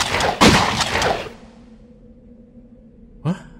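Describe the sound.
A gunshot fired at a man's forehead and chest makes a loud, sharp blast with a long fading tail. A steady low hum follows, then a short burst near the end, with no talking.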